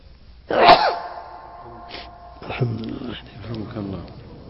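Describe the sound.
A single sharp, loud sneeze bursts out, followed by voices talking.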